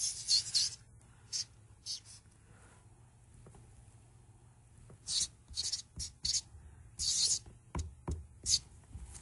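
A marker drawing a diagram on a whiteboard: bursts of bright, squeaky strokes, a few at the start, then a quiet pause, then many quick strokes in a busier run toward the end.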